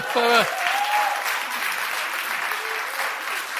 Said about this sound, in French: Alors on peut acclamer le Seigneur, non?